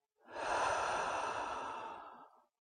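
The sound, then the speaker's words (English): One slow breath is sighed out through the mouth during a guided breathing exercise before a bedtime story. It is a soft, airy exhale lasting about two seconds, rising quickly and then fading away, with no talk. “and sigh out of the mouth. Again, breathe in and out.”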